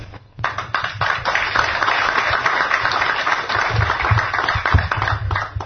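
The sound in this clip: Audience applause at a book presentation about Russia and the Russian people. The clapping builds quickly after a quiet start into a sustained patter of many hands, with a few sharper claps standing out near the end.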